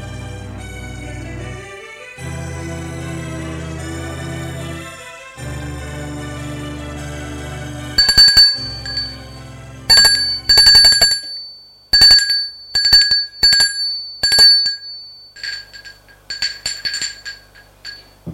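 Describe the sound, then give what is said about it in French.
A doorbell rings at an apartment in bright, metallic chimes that come in several rapid clusters after a stretch of low sustained tones, then grow fainter toward the end. “On sonne chez Judith.”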